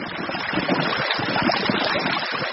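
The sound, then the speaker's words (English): A meltwater river flows across the top of the Greenland ice sheet during a warm summer melt. A steady, dense rush of moving water churns on without pause. “It is a river, but it's on top of an ice sheet. That's the sound of the Greenland ice sheet melting this summer.”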